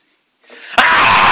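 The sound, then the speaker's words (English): A voice imitates a small child of three or four screaming when he doesn't get his way: a loud, abrupt, sustained shout that bursts out after a short rising intake of breath. “When Sean didn't get his way, when he was at that age, he would scream.”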